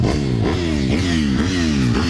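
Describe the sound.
Motorcycle engines at a motocross track of the Pacov motor club, set up for sprint motocross: a loud, continuous buzzing drone whose pitch climbs and drops again in repeated rev cycles about every half second.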